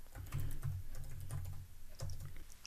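Typing on a computer keyboard while entering hashtags for a social media post: many quick, even keystroke clicks in a steady patter, with a few louder taps standing out.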